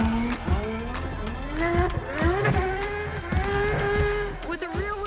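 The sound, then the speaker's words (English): A McLaren drift car sliding sideways around a race track, its engine revving in loud, continuous surges that repeatedly rise and fall in pitch as it holds the drift. “this McLaren is a master at sliding with complete control.”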